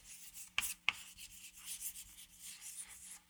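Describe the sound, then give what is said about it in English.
Writing on a board: scratchy rubbing strokes, faint and irregular, with a few sharp taps near the start and a final one at the end. “Let me write that down.”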